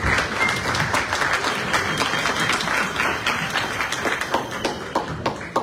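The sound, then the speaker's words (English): An audience applauds at an official ceremony as a speaker is welcomed. Dense, steady clapping runs throughout at an even, lively level. “Come on, put your hands together for Abby.”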